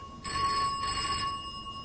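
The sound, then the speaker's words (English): A red telephone rings in a single sustained burst of about a second, a steady, faint, bright bell-like tone. “Well, the telephone. The telephone, but if it's for me, I'm not here.”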